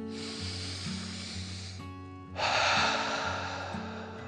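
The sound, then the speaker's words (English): A deep breath in and out over soft background music: a long, hissy draw of air followed by a louder, rushing release. “While he rested, the scoop took a deep breath in and out.”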